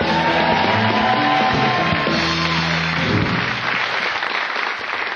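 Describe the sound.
Studio audience applause and yells greet a sidekick coming on stage at a comedy show, a loud, full roar of clapping and shouting that holds strong and eases slightly toward the end.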